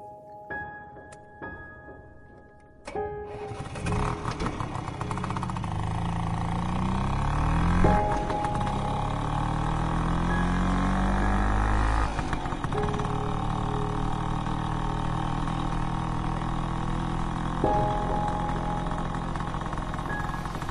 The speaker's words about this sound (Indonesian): Kulajukan motor Vespaku di jalanan Bandung yang sudah mulai sepi.